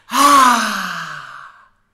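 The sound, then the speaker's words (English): One loud, audible exhale during a guided breathing exercise: a single sigh-like breath with a voiced start, lasting about one and a half seconds and fading out alone. “I want you to exhale audibly.”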